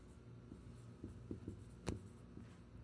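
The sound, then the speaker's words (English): Faint squeaks and taps of a marker writing large letters on a board during a sermon, a few short scattered strokes over a low steady hum. “Let's just write it in big ugly letters here.”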